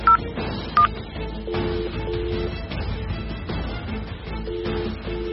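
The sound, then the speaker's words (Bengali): Two short, bright touch-tone keypad beeps as a phone is dialed for a call, followed by a low, steady background noise. “রিনিকে কোল থেকে নামিয়ে দিয়ে কিছুক্ষণ স্তম্ভিতের মতো বসে থাকে সৌমেন, তারপর রানাকে ফোন করে।”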